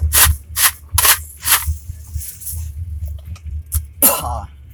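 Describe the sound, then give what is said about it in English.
A voiced, throaty cough with a harsh breathy burst, heard alongside several short scratchy rubbing bursts that come before it. “That was such a vocal cough.”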